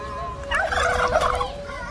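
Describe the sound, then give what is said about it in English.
A free-range turkey gobbles in one loud, rapid, warbling burst that rises over a steady background hum, then fades back out. “No, no, I want this turkey right here.”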